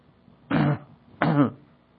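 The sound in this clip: A person clears their throat twice with two short, rough, voiced bursts separated by a brief pause, at the start of an evening Bible reading.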